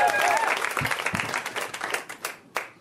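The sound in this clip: Audience applause for a comedian at a stand-up show in Boise: a dense, sustained wash of clapping that slowly thins out, with one brief burst of claps near the end before it fades.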